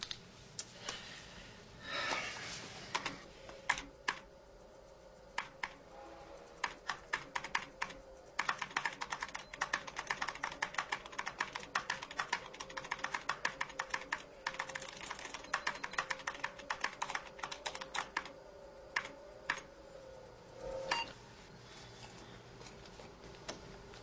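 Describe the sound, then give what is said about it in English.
A computer keyboard is typed on steadily, a long run of rapid, crisp keystrokes broken by short pauses, with a faint steady hum underneath. “Hello, computer. Just use the keyboard. The keyboard. How quaint.”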